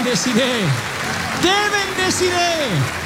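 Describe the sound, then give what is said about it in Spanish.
A church audience applauds with steady, dense clapping while loud, excited voices shout and cheer over it, rising and falling throughout. “Denle el mayor aplauso de la historia al Señor de señores, al Rey de Reyes”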